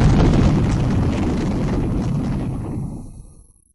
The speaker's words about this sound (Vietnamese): Một tiếng trầm đục vang lên, đại môn từ từ mở ra.